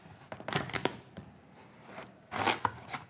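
Knife cutting through a raw Hokkaido pumpkin, skin on, in a kitchen: a few crisp, crunchy cracks in two short bursts, with quieter scraping between them.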